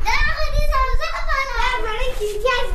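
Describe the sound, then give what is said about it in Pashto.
Children's voices chatter and call out as they play, throwing snowballs in a snow-covered street in Ghazni; the bright, lively voices overlap continuously at a steady, fairly loud level. “په کوڅو کې ماشومان په یو بل پسې د واوري مرګوړي ولي او ساتیرای کوي.”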